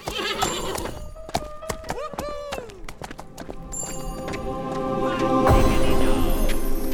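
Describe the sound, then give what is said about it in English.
A dancing pony whinnies amid clip-clopping hooves. Its wavering neigh bends downward in pitch partway through, while hoof beats tap steadily and a louder rushing noise builds toward the end. “I finally got me my dancing pony, and he loves Beethoven just like I do.”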